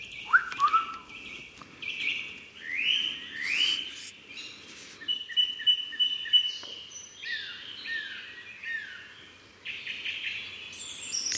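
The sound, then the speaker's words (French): Morning birdsong in a French forest: many clear whistled phrases, chirps and quick trills from several birds, rising and falling in pitch, overlapping at moderate volume over a quiet background, with no talking. “ce qu'on entend, c'est le son d'une forêt française, pour être plus précise, le matin même”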